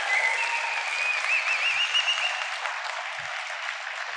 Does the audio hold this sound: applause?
yes